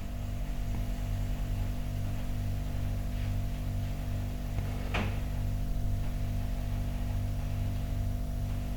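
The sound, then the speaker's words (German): A refrigerator hums as it switches on, giving a steady low electrical drone that holds at an even level through the whole clip. “Das Schöne ist immer, wenn der Kühlschrank angeht”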